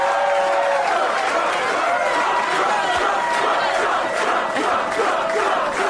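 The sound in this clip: A large crowd cheers and shouts at a Donald Trump celebration after a Georgia special election to replace Tom Price, a loud, dense roar of many voices that surges and swells without a break.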